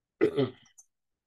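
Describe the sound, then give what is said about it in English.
A single brief throat clearing, a short guttural rasp of about half a second that tails off, followed by a tiny click, with silence around it. “Couldn't get that out. Had a little something caught in my throat there.”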